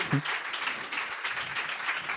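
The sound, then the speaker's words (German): Audience applause greets a singer after a song, a dense, loud, continuous crowd clatter with a brief cheer near the start, sustained evenly throughout. “Dein Applaus.”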